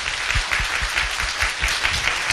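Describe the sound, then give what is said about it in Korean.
Applause of thanks from a church audience for the accompanists, dense and steady clapping with soft low thumps running through it. “우리 모든 반주 섬겨주시는 우리 자매들께도 이런 감사 박수 한번 하기 원합니다.”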